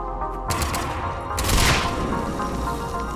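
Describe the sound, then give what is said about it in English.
Video game gunfire during a firefight against Cerberus forces: layered shots and cracking bursts over a steady rumble of combat, with a louder flurry midway. “There's a lot of bullets coming from very odd directions”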